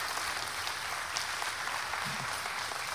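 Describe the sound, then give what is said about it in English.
Applause from a standing ovation: continuous, dense clapping from many hands at a constant, moderate level, with no pauses. “Oh, a standing ovation. That's awesome. That's awesome.”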